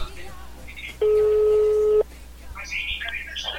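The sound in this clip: One steady, mid-pitched ringing tone of an outgoing telephone call sounds for about a second. Talk comes before and after it.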